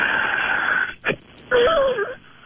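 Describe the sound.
A patient breathes out forcefully with a wheeze during a breathing exercise, pushing out as much air as possible. A long, rough exhale is followed by a brief gasp, then a second strained breath with a wavering whistling tone.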